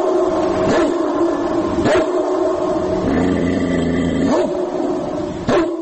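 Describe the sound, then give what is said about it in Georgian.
Recorded dogs barking with growling, played from an MP3 player through amplifiers to scare wild boars away from gardens. Dense, tonal growls and whines run throughout, broken by a few sharper yipping barks. “შეიძინეს ეს ემპი სამი პლეიერები, მასზე ჩაწერილი ძაღლების ყეფა ღრენით.”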